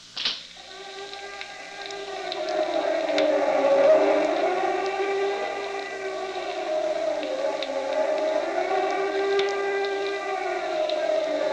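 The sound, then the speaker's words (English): Air raid sirens in Berlin sound before a bombing: a steady, loud wail rises at the start, then holds with slowly wavering pitch throughout. “Here is the sound of the actual air raid sirens in Berlin just before a devastating bombing.”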